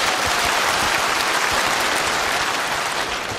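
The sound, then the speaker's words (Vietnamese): Loud, dense applause from an audience at a Buddhist sutra talk, many hands clapping steadily and continuously for over three seconds with no speech. “Xin đại chúng cho một tràng pháo tay thật lớn.”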